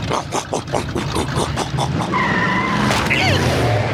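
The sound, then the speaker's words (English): Engine roar and tire squeal from a supercharged riding lawn mower speeding and skidding: a loud, rhythmically pulsing motor drone gives way to high, wavering squeals and a sharp burst of noise, all continuous and loud. “I did it! I supercharged my riding mower!”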